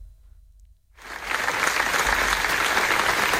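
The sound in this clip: Applause at a memorial gathering in Manresa for a man killed during the town's festival. About a second of near quiet gives way to clapping that swells quickly and holds steady at a moderate level.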